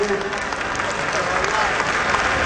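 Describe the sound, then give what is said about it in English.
Audience applause at a speech: dense, steady clapping fills the whole clip at an even level, with crowd voices mixed in. “listen to these idiots clap.”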